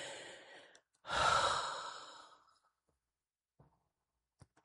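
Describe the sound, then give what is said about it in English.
A long, forceful exhale blown out to empty stale air from the body: one breathy rush that slowly fades, followed by near silence and a few faint clicks. “Now we're going to blow out all that stale air that's trapped inside of the bodies.”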